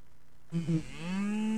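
A single long cow moo, low and loud, starts after half a second of quiet and holds to the end, its pitch drifting slightly upward.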